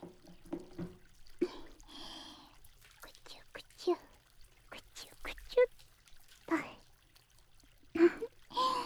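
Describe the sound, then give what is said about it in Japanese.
Body soap is poured, with soft wet drips and trickles scattered among close, breathy whispering and a few faint clicks. “ボディーソープもっと垂らすね。”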